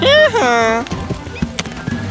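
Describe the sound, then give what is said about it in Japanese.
A donkey led into a river gives a loud braying call that rises and falls, then its hooves clop in several uneven steps, quieter and irregular. “商人は静かにロバを川で歩かせました。”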